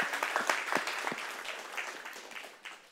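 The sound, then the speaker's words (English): A church audience applauds to give the Lord a hand, a dense, steady patter of many clapping hands that gradually eases toward the end. “Hey, church, can we just give the Lord a hand?”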